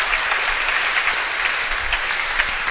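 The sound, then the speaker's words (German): Congregation applauding during a church service, a steady dense wash of clapping that holds at an even, fairly loud level throughout with no voices on top. “Give the Lord a hand.”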